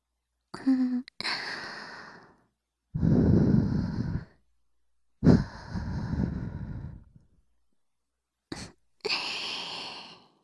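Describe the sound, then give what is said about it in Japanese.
Gentle blowing into an ear: soft, airy breath puffs, each lasting about a second, separated by silences, with one very short puff near the end. “さっきより、お耳ふうふうされるの、気持ちいいでしょ？”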